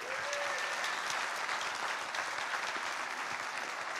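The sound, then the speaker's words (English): A church audience gives a big hand of applause to welcome guests who are joining remotely. Dense, even clapping continues at a steady level from start to end. “And so, ladies and gentlemen, would you give them a big hand and welcome them here?”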